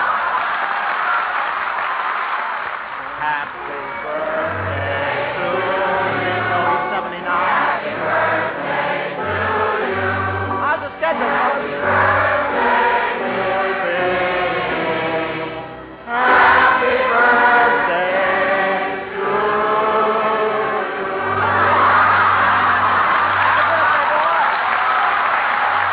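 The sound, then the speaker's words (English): A studio audience gives a standing ovation: sustained, dense applause with cheering voices mixed in. It runs steadily loud, dips briefly, then swells again before continuing to the end. “Sounds like you got a standing ovation.”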